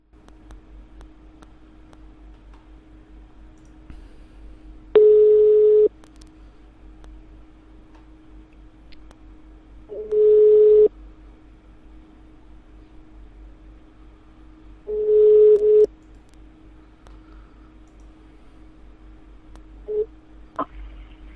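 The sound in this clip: Ringback tones of a phone call being placed: three clear one-second tones at regular five-second intervals, with a brief blip near the end, over a low steady hum, with no voices.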